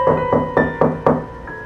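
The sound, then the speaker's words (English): Knocking on the door of an old rundown house: five firm, evenly spaced knocks in quick succession over a steady sustained tonal background. “We can knock, but only because an old rundown house like this has gotta be empty.”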